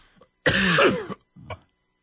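Coughing: one harsh, loud cough lasting over half a second, then a shorter, fainter throat-clearing cough after a brief pause.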